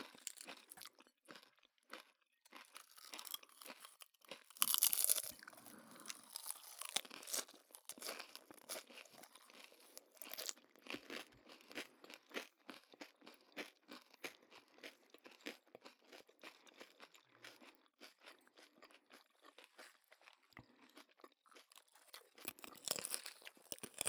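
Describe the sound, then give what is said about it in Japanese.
Crunching as a last bite of a crispy food is taken and chewed. A louder crunchy burst comes early, then many faint, crisp crackles of chewing continue steadily, with no talk. “最後にもう一口。”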